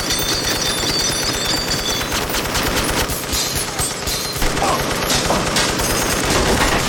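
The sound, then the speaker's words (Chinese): A machine gun mounted in a car's back seat fires one long, loud, continuous burst of rapid shots, dense and unbroken for the whole clip. “车后座的机枪立刻启动，一阵突如其来的疯狂扫射，将毫无防备的杰克一伙全部扫死。”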